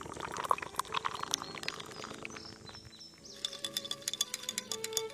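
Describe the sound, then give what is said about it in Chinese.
Chilled beer is poured into a glass as a quiet, bubbling trickle, with birds chirping and tweeting softly throughout. “然后给自己倒一杯冰镇啤酒或者梅子酒，看一部电影。”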